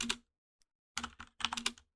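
Names are typed on a computer keyboard as short clusters of quick clicking keystrokes separated by brief pauses.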